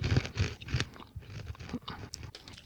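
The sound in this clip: Sunflower seeds being chewed give faint, irregular crunches and moist bites that come in uneven bursts, quiet and close, with no talk over them.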